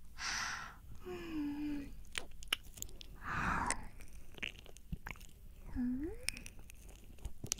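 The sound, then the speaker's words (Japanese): Soft, wet mouth nibbling on an ear, recorded binaurally for ASMR. Moist smacks and chewing-like clicks repeat irregularly over several seconds, broken by a couple of brief, quiet voiced hums. “先輩の汚いお耳、ハムハムしてあげてるんですから”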